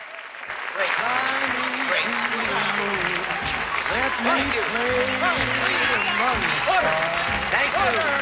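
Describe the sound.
Audience applause breaks out after a brief quiet start and continues as steady, dense clapping, with voices audible over it.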